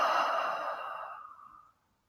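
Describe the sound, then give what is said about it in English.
A big exhale during a breathing exercise: one long, breathy sigh that starts full and gradually fades away over under two seconds, with no talk. “Again, breathe in together. And a big exhale.”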